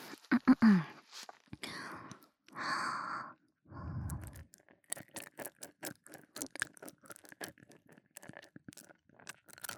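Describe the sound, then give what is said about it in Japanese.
Loud nasal breathing, with a few long, heavy breaths in the first four seconds, followed by many short, soft clicks. “鼻息がすごいうるさい気がする。”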